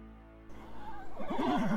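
A pony whinnies in a loud, wavering high neigh whose pitch shakes up and down repeatedly over about a second.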